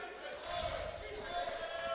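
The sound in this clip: Basketball dribbling on the court during a Mountain Home versus Benton game, heard as a few faint, evenly spaced bounces over a steady wash of crowd and gym noise.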